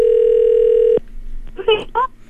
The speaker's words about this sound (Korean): 자, 지금 신호가 갑니다. 갑니다. 갑니다. 전화를 받으실지.